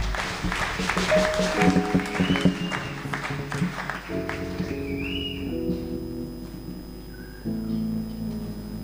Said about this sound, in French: Est-ce qu'on peut acclamer pour le Seigneur?